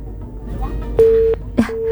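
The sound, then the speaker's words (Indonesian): Busy tone after a caller's phone line to a radio station disconnects: two steady, mid-pitched beeps over low background noise, the second cut in by a short click. “Terputus, bisa dicoba kembali nggih yang di 24644.”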